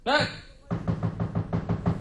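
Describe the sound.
Knocking on a door: a brief voiced call, then a rapid, even series of firm raps, about seven in a row, sharp and moderately loud.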